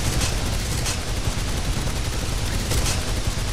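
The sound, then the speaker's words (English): Sound effect of an automatic gun firing continuously until empty: a dense, unbroken barrage of rapid shots held at a steady loudness for the whole stretch, with no voices. “I'm just gonna unload it into the synths. I'm just gonna hold down the trigger until it stops shooting.”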